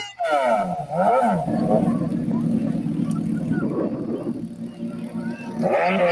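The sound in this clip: A high-boost engine revs hard, a loud growling roar whose pitch swoops up and down in repeated sweeps, holding steady in the middle and surging again at the end.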